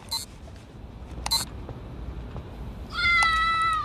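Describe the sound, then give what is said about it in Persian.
A cat meows once, a drawn-out, clear, high-pitched cry near the end, over a low background hum with a few brief clicks beforehand. “برو گم شو گربه یه لعنتی.”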